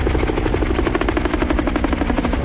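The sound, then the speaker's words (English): A helicopter speeds through the sky overhead, its rotor beating in a fast, steady, loud chop with a constant engine drone and no pauses. “Shown from overhead, a helicopter speeds through the sky.”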